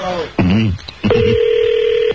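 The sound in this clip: A telephone tone as a number is dialed to place a call. A brief burst of voice comes first, then a single steady electronic tone sounds for about a second before cutting off.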